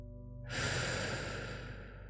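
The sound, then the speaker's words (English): A single deep breath, a long airy rush of air that swells in and out and fades slowly, with a steady low hum underneath. “Taking a deep breath now.”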